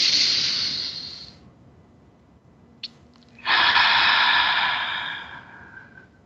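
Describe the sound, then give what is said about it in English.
Deep breaths from a guided breathing exercise: two long, airy, hissing breaths separated by a quiet pause, with a small click just before the second breath. “Few deep breaths. Feel it go right down to below your navel when you breathe in.”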